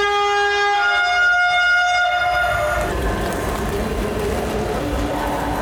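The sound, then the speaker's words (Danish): A long, loud train horn sounds at the main railway station in Frankfurt in the morning, a sustained harmonic blast that stops and gives way to the broad rumbling noise of rail traffic. “Frankfurt Hauptbahnhof her. Klokken er 8 om morgenen. Jeg sidder og venter på mit tog”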